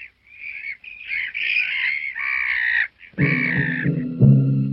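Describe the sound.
Seagulls crying on the coast: several harsh, drawn-out calls, some overlapping, loud and with no talk.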